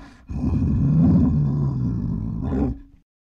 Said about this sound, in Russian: Бурый медведь.